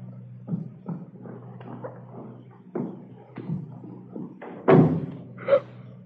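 Dull thumps and bumps as a dead man's body is dragged, a series of uneven, heavy knocks over a low steady hum, with one louder thud near the end.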